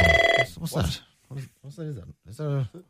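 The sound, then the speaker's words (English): A special hotline telephone rings: a short burst of bright electronic trilling at the start, then voices talking. “what's that? Is that a phone? It's coming from over there. Oh, it's the bat phone. This is the phone to top brass.”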